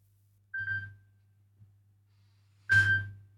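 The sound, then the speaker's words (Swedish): A telephone rings in two short, bright electronic bursts a couple of seconds apart, fairly quiet, over a low steady hum. “Det ringer hör vem kan det vara?”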